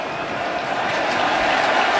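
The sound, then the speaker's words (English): A stadium crowd cheers at an American football game in Philadelphia against Washington before a third-down play. The dense, steady roar builds slightly in loudness across the moment. “Third and 6 on their own 15 as the crowd revs it up here in Philadelphia.”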